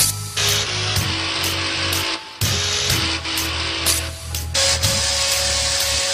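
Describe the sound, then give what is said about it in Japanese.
Chainsaw sounds are played as music, with buzzing, droning tones arranged in a rhythmic pattern over a deep bass line and broken by short, sharp cutoffs. “これ全部チェーンソーでやってんの ほぼ 99% チェーンソー 99% チェーンソー、 はい、 これベースもチェーンソーでやってんだろ”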